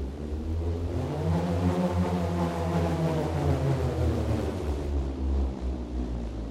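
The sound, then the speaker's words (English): A wooden bullroarer, a flat piece of wood on a string spun in circles, gives a loud, continuous whirring drone. Its pitch wavers and pulses as it turns, with no voices. “it's a piece of wood on a string. It's one of the oldest instruments. But it sounds incredible. You spin it in a circular manner. And in doing so, it slices through the air, creating this sort of sound.”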